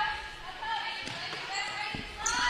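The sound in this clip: Basketball dribbling on the court during a women's game: a few dull bounces under continuous commentary and a steady crowd hum.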